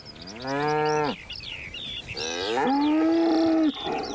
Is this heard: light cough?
no